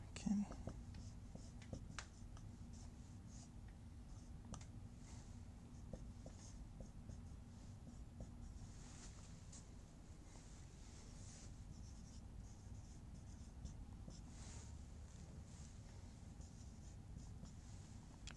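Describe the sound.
Steady scratching of writing on a board runs through the whole clip, with a few sharper taps and strokes. It sits over a low, constant hum.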